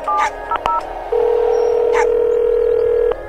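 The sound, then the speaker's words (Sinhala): A telephone call being dialed: a few short keypad beeps in quick succession, then a long, steady tone that holds for about two seconds before cutting off. “විහඟත් එක්ක කතා කරලා එළියට ඇවිත් Sachi රශ්මිට call එකක් ගත්තා”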